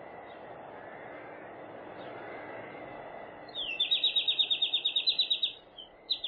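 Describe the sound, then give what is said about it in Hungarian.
European robin calling: a rapid run of many sharp, high repeated notes begins partway through over a steady background hiss, followed by a couple of brief extra notes near the end. “Milyen madár ez? Nem tudja. Vörösbegy. Ez a legfurcsább madár a világon”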